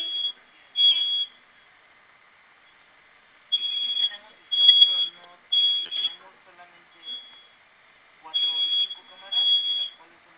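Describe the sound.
A security alarm system beeps before being disarmed, sounding a series of short, high-pitched electronic beep bursts in irregular clusters that stop and start, fairly faint against near-silence.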